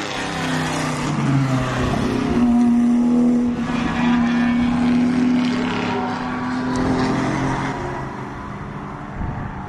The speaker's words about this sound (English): That's a very nice black Corvette. Didn't hear much sound from it.